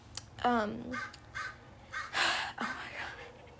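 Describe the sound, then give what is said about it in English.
A crow calls with a few harsh, rasping caws, loud and grating, each with a slightly falling tone, rising over a low background rumble. “Also, shut up, crow.”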